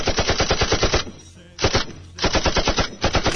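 A gunfire sound effect played as a guessing game: rapid automatic shots in several loud bursts separated by brief pauses.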